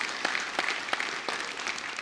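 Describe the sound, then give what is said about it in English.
Audience applause breaking out during a talk, a short burst of dense, steady clapping at moderate loudness with a few sharper individual claps standing out. “I've had people, yeah, that's worth clapping, isn't it? That's good news.”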